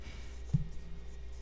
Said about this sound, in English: What are you writing?